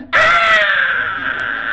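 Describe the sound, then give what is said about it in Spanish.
A person imitates the enraged scream of a three-month-old baby: one loud, sustained, high-pitched shriek that begins abruptly and holds for almost two seconds, its pitch easing slightly downward. “usted ha oído el grito de ira de un bebé, de esos que no hablan, de los que tienen 3 meses.”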